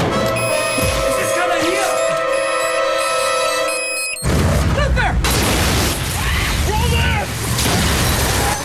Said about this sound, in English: the magnetic mine explodes, sending flames surging out from the upper floor